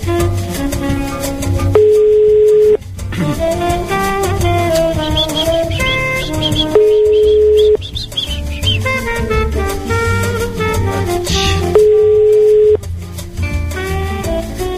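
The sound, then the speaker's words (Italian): Ringback tone of an outgoing phone call: three long, steady mid-pitched beeps, each about a second long and evenly spaced, sound over continuous background music. “facciamo questa chiamata”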